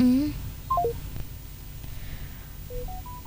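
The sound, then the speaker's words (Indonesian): Electronic telephone tones sound on a phone line that has dropped and disconnected during a live traffic report call. Short stepped beeps come first as a falling run, then as a rising run near the end, over a low background hum. “Oke, sepertinya masih terputus ya, Seru Cakra. Ini tadi untuk teleponnya mungkin bisa dibantu untuk disambungkan kembali kepada Ibtu Ahmad Zainuddin”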